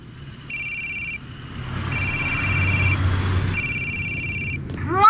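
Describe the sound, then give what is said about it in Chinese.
An electronic telephone rings in two bursts of rapid, trilling tone over a low, steady rumble. Between the bursts, a quieter steady tone sounds. “爸，电话。”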